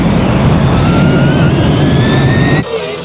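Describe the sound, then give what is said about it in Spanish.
A jet airplane engine roars at takeoff, a loud, dense, steady rush with a thin high whine that climbs slowly in pitch, then cuts off abruptly just before the end. “Por favor, abrocharse los cinturones. ¡Abróchense sus cinturones! El vuelo Soy FM va a despegar.”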